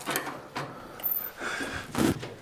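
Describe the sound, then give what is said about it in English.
A stiff door at the top of a narrow staircase leading to the crown of a dome being forced open, heard as a few faint scraping and knocking bursts separated by short pauses. “That door's a little stiff.”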